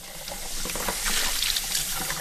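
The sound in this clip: Baby bottles are scrubbed at a kitchen sink, giving a steady wash of running water and splashing with light rubbing and rattling, with no talk.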